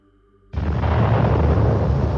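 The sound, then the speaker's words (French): Motorised artillery cannon fire in a fir forest: a sudden heavy blast cuts in over a faint low hum and holds as a loud, sustained roaring rumble to the end. “l'artillerie motorisée crache son feu. Le bruit du canon rebondit de sapin en sapin.”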